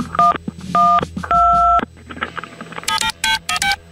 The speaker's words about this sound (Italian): Avete sentito i tasti del suo telefono? E io allora gli metto dei suoni diversi per confonderla.